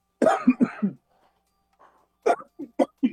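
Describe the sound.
Coughing from someone whose voice is recovering: two harsh coughs in quick succession, a silent pause, then a quicker run of four shorter coughs.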